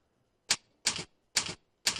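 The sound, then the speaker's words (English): A phone number is dialed on a keypad with four crisp, clicky button presses spaced evenly apart, each short and sharp, heard alone against near silence. “He dials that number. He starts dialing. He's slow.”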